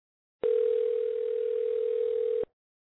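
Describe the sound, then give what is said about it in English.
Steady telephone dial tone heard as a call is being placed: a single continuous hum that starts abruptly, holds evenly for about two seconds, and cuts off cleanly, with no voices or key beeps. “I'm going to dial it on the air live. We're making a call live.”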